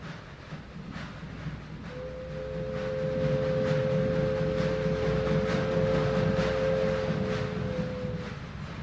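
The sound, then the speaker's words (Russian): Train pulling into a station: a low, rolling rumble that builds and stays loud, with a long, steady high tone held for about six seconds over it. “Граждане пассажиры, забирайте вещи, подходит поезд.”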